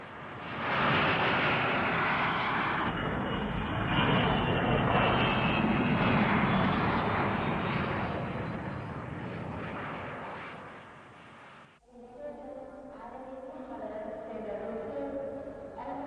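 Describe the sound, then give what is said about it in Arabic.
An airplane about to land gives off a loud, steady engine roar. It swells and holds for several seconds, then eases and cuts off abruptly into a quieter passage. “عن إذنك، الطيارة قربت تنزل.”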